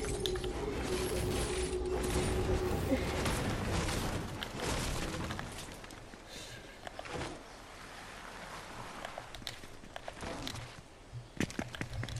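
Weapons being reloaded in the video game Fortnite: dense, continuous mechanical clicking and ratcheting, with many small clacks over a busy wash of game sound.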